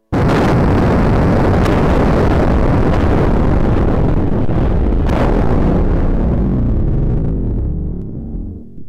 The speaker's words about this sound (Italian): Alle 11:02 deflagra la bomba atomica.